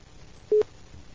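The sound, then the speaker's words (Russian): A telephone busy tone follows the hanging up of a receiver: a single short, mid-pitched beep, steady and clear, that stands alone over faint background hiss. “Что ты, сука, там трубку-то вешаешь, гнида, блядь?”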